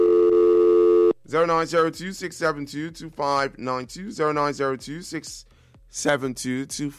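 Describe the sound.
A telephone line rings for a caller on a radio call-in show: one loud, steady, buzzing tone lasting about a second, then continuous talk.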